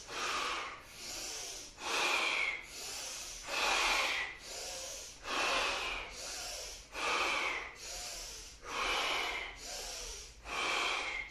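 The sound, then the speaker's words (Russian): Deep rhythmic breathing during a kriya breathing exercise: a steady run of many forceful, snort-like breaths, evenly spaced at roughly one per second, each a loud breathy rush of air with no talk. “Вытягиваете себя на вдохе. Удлиняете. Дышим, дышим. Дышим, дышим.”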